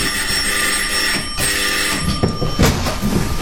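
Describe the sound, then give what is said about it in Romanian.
A bell rings to summon someone, a steady sustained ringing tone that holds through the whole moment over a noisy, rumbling background. “Mai întâi o să-l sun pe Ames.”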